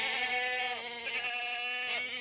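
Goats bleat in a few drawn-out, wavering cries, each holding a steady pitch with a brief break between them, moderately loud with no talk.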